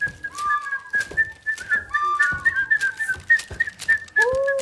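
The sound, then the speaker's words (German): Calls of two large parrots perched high in tree branches: repeated whistled notes that bend and slide, over a steady high tone, broken by a few sharp, brief clicks. “Da, schaut! Ganz oben auf den Ästen sitzen zwei große Papageien.”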